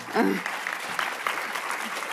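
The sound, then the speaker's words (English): Audience applause for a film director at an evening screening event, a dense, steady wash of clapping that holds for about two seconds after a brief voice at the very start. “Stand up, Lewis, so everybody can give you a round of applause.”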